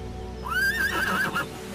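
A horse, a mare tied on a shore near water, gives a single whinny lasting about a second, a rising then wavering high neigh over low background noise.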